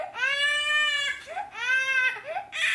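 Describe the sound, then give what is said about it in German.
A recording of a baby crying plays from a tablet: three loud, strained wailing bursts with short breaths between them, the last one cut short. “Kindergeschrei, dass sie merken, okay, das bringt mich erstmal in eine ganz andere Verfassung, wenn ein Kind schreit.”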